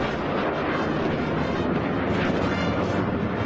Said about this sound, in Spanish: observaron exhibiciones militares, incluyendo un vuelo espectacular de aviones de la Fuerza Aérea